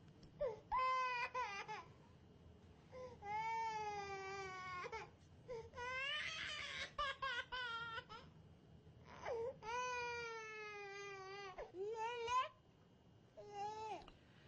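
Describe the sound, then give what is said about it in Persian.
A baby cries in repeated wailing bursts, several high, quavering cries separated by short pauses and broken by whimpers, fairly quiet overall. “گریه بچه زبانشه، میخواد بگه دلش درد میکنه یا گوشش.”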